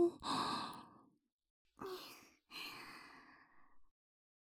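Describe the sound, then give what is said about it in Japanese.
Breath blown into an ear, three soft, breathy puffs of air with short gaps between them, quiet and airy, with no talking. “こんな風に。耳を息で吹かれたり、”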